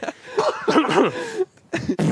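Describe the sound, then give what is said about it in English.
A person fakes a cough with the voice, making strained, throaty bursts that wobble in pitch. A longer run of rough, voiced huffs is followed by a short pause and then a couple of quicker bursts, all fairly loud. “What if he tried to cover it up with a cough and he's like,”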